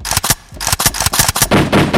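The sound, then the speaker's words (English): A gunshot sound effect fires as a rapid volley of many loud, sharp cracks in an uneven rhythm. The shots run without pause and with no voices. “Shots fired.”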